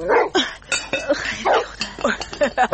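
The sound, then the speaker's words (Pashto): A dog barks beside a tent pitched at the foot of a mountain: many short, sharp barks in an uneven rapid rhythm, fairly loud and with no talk over them. “دا د تنګ کېږدۍ سپی چا ته غپېږي؟”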